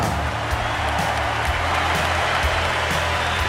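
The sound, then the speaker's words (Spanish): Audience applause after a boxing fight: a steady wash of clapping that runs loud and even for the whole stretch, with no voices over it. “Primero vamos a darle un aplauso para una tremenda pelea.”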